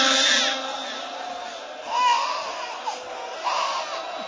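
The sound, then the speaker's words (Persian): A baby cries in a few strained, wailing bursts separated by brief quieter pauses, over a steady background hiss. “عزیزم آروم باش، چرا اینجور داری گریه میکنی؟”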